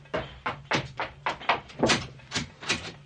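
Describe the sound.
A wooden door thuds with many heavy knocks and bangs in a fairly regular rhythm, each sharp hit followed by a short dull rumble.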